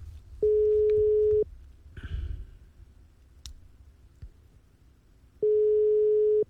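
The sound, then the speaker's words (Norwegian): Ringback tone on an outgoing telephone call: two long, steady, buzzing tones, each about a second, spaced roughly four seconds apart, with faint clicks and line noise between them and no voices. “Her kommer siste kasinodeltaker for denne gang. Og det ringer”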